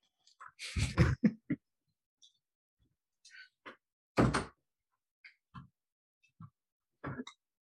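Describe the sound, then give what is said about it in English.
A door is closed in a quiet room, heard as faint scattered clicks, knocks and handling noises, with two louder thuds standing out among the lighter sounds. “one second, let me close my door.”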